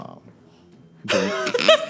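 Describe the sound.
A war ape in a video game gives one short, harsh snort, a rough burst with a throaty, voiced edge that rises abruptly out of near-silence and lasts under a second.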